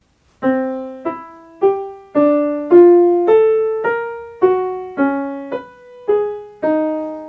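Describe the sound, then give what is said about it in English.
A twelve-tone row played as twelve separate struck notes at an even, unhurried pace. Each note rings and decays before the next, and the pitches leap irregularly up and down without settling into a familiar melody. “This is a perfectly reasonable tone row that I've done here. It is a boring tone row written by me. But it sounds like this.”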